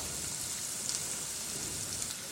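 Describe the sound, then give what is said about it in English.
Onions and garlic sizzle as they sauté in olive oil, a steady, even hiss of frying with fine crackle throughout and no talk. “First, I'm going to put the onions in. Back to the bench scraper to scoop up these onions when they're going into the oil. Now we can squeeze the garlic into there as well.”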